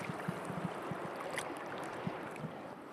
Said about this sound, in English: so this is the sound of the Tazlina River.